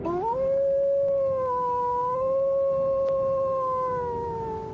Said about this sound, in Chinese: 只听高处一声凄厉的狼嚎，嚎声悲愤苍凉，怨毒难言。